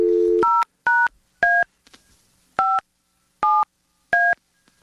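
Telephone keypad tones as a number is dialed: an opening dial tone, then six crisp two-pitch beeps in an uneven rhythm, loud and clear with short silent gaps, no talking.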